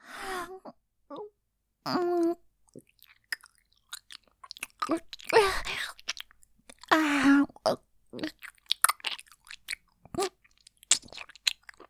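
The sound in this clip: Chewing and biting on hardened bits: scattered small crunches and wet mouth clicks, irregular and fairly quiet, broken by a few drawn-out voiced moans.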